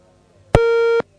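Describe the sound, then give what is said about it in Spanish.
A telephone busy tone after a dropped call: one short, steady, loud electronic tone that starts and stops abruptly, heard alone. “Bueno, se nos cortó la llamada.”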